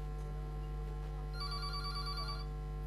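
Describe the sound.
Ringtone of an incoming WhatsApp call on a phone, a faint repeating electronic ring pulsing for about a second over a steady low hum.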